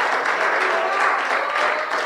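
An audience applauds during a church service. Dense, continuous clapping from many hands holds steady and loud for the whole stretch.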